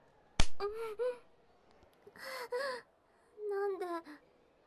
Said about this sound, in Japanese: なんで叩くの？